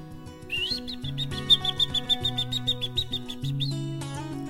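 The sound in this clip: Small bird chirping in a told fable: a quick run of high, bright chirps, about nine in a row, rising briefly at the start, set over a soft bed of music.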